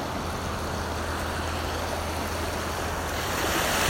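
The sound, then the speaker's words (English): Ocean waves wash onto a shore at sunrise as the tide comes in. The surf makes a steady, dense rushing roar that swells slightly louder toward the end. “And the waves begin to touch your toes as the tide comes in.”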